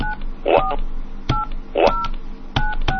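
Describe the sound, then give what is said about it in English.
Touch-tone keypad beeps enter a caller code on a phone conference system: several short dual-tone beeps, each marked by a sharp key click, spaced irregularly. “Punch in the other caller's code now.”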